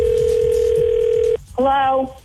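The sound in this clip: A loud, steady telephone call signal tone holds for over a second, cuts off briefly, and then a voice answers the phone.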